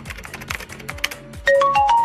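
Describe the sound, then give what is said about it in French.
A Google search is typed on a mobile phone: a long run of quick, light taps, then a short series of bright electronic chime tones at different pitches. “Sors ton téléphone, on va vérifier ça sur Google.”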